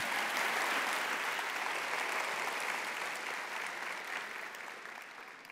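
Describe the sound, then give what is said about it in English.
Audience applause welcoming a speaker after a prayer at a worship gathering, steady dense clapping that slowly tapers off toward the end. “you're going back to the United States, don't let it go to your head where people applaud you before you have said anything”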